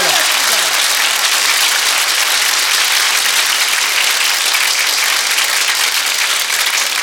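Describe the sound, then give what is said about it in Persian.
Audience applause and clapping at a chanted celebration, a dense, loud, unbroken wash of hands that runs throughout, with a voice briefly audible at the start. “دست بزن، همه دست بزنن.”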